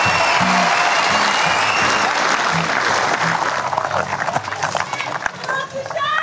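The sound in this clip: A Melbourne audience loudly applauds and cheers in welcome for Shaquille O'Neal, a dense, steady roar of clapping and shouts, with a few voices calling out near the end.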